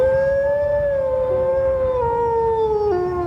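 Arctic wolves howling in a pack: a long, sustained tonal howl that glides slowly downward in pitch, joined briefly by a second overlapping howl, loud and clear with no other sounds.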